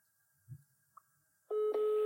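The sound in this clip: A telephone tone sounds loudly and steadily after a mostly quiet stretch, with a brief dip partway through. A few faint, short sounds come just before it.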